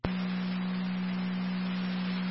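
A county EMS dispatch alert tone for South Lockport sounds as one steady, unbroken low tone that starts abruptly and holds at an even level for over two seconds.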